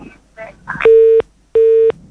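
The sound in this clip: A telephone busy tone after a caller hung up: two steady, level beeps of equal length separated by a short gap, following a brief moment of talk.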